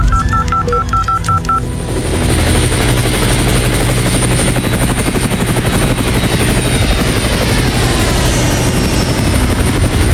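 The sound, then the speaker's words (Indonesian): A helicopter readied for emergency disaster relief drones with a loud, steady rotor and engine whir that runs throughout, preceded at the start by a brief series of rapid electronic beeps. “Kontak markas besar dan siapkan helikopter sekarang.”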